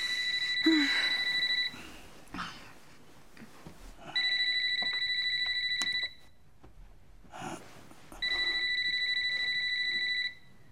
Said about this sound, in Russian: Ты не ответишь? В 2 часа ночи мне может позвонить только один человек.